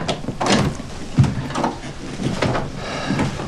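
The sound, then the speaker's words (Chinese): A door is opened onto a bedroom on the third floor: a few wooden clunks and rattles, with one sharper thud near the middle, at moderate loudness and without talk. “我去开门。”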